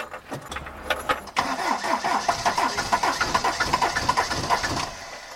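An old vehicle's engine starts on a winter day. A short, low cranking sound leads into the engine catching, which then settles into a rough, rhythmic chugging of evenly repeated pulses.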